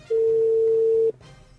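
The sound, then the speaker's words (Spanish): A telephone ringback tone on a second attempt to reach someone: one steady, mid-pitched electronic beep lasting about a second, loud and alone, followed by faint background noise. “Segundo intento de llamada, es el show de las mañanas. Ahí está. Ojalá conteste.”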